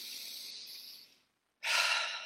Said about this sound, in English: take a deep breath and then out. And one more, to where it's just like, you want to release.